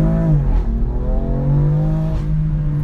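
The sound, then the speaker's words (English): A performance car engine popping and crackling on the overrun while shifting down through the gears. Its droning tone dips in pitch and two sharp pops cut through. “I don't know whether you heard it popping and cracking down through the gears there on the overrun, but it just sounds fantastic.”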